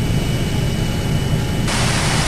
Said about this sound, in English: Here are the pedals and here is the joystick. Nothing to this. Well, here goes. I'm going to try to take off now.